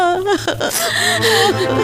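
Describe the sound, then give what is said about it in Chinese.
A mother cries, a short burst of wavering, whimpering sobs with catching breaths that stays loud from start to finish. “好了，妈妈，别哭，别哭，我回来了。”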